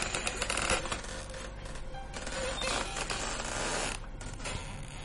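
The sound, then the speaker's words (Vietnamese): A door slowly creaking open in a village ghost tale: a fairly quiet, drawn-out raspy creak with a clicking, ratchety grain and small knocks, with no talk over it. “Khi cánh cửa chậm rãi mở ra”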